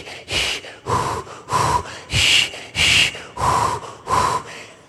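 Imitated rhythmic labour breathing, the controlled technique used to stay focused through a contraction: a steady series of sharp, forceful breath bursts in an even rhythm, loud and alone with no talk.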